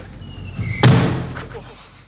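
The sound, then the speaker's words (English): A glass door slams shut with a single loud, sharp bang that rings out and fades over the following second. “Just slammed it on my face.”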